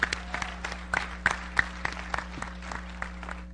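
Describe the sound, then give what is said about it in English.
Scattered audience applause: many irregular hand claps of modest loudness, with a steady low hum running underneath. “So you guys just got to give her a hand clap”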